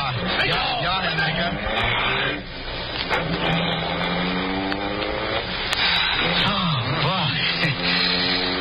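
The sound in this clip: A car engine revs hard as a vehicle drives off in a hurried wartime escape, its pitch swelling and dipping continuously, with voices heard over the engine noise.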